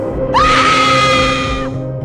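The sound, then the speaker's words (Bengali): A woman screams in terror on waking to a hideous face at her bedroom window: one long, shrill, sustained scream that swoops up at its start, laid over a low droning music bed, then breaks off. “আতঙ্কে চেঁচিয়ে ওঠে নীলিমা নীলিমা চিৎকারে পাশে শুয়ে থাকা সমরেশ্বরও ঘুম ভেঙে যায় এবং সমরেশও”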